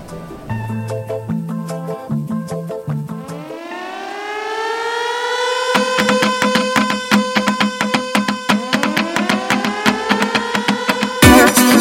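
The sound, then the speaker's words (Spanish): Sirens wail in a Venezuelan Electrocaribe music track. After a short synth melody, loud siren tones sweep upward and repeat over a steady pulsing beat. “Suenan las sirenas”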